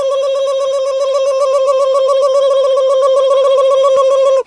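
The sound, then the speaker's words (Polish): A telephone tone sounds as a call is placed to a firm that handles vibration and noise control: a steady, loud, buzzing tone with rich harmonics, held unbroken for about four seconds before cutting off abruptly. “Wybrałem numer do specjalnej firmy zajmującej się drganiami i hałasem.”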